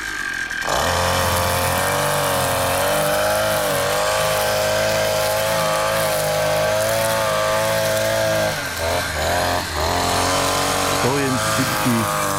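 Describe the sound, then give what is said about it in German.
Brushcutter mowing the last blades of grass: a loud, steady, high-revving engine whine with strong harmonics that briefly dips and wavers near the end. “die letzten Grashalme zu mähen. Hörschutz, Brille und los geht's.”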